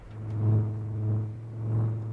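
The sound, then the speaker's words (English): A boat's Chrysler Hemi engine, hot-wired, revs in a steady low throbbing hum that swells in loudness a few times without dropping out. The tone holds a deep, even pitch throughout. “I'll untie it while you start the engine. Cleverly, Cliff casts off the mooring lines while Ashley hot wires the Chrysler Hemi.”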